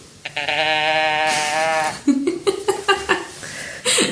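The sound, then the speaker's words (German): A teddy bear toy sounds its voice, a long nasal bleating cry followed by several short, choppy bleats and squeaks. “Ja, erstmal muss der Teddy jetzt selber zu Wort kommen. Hier, Achtung.”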